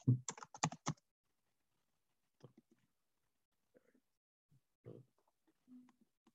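Typing on a computer keyboard while entering an email address: a quick flurry of crisp keystrokes in the first second, followed by a few sparse, faint clicks separated by silence.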